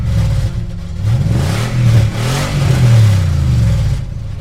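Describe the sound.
A car engine revs hard, its deep, loud growl swelling and dipping in pitch several times in a continuous run with no pauses.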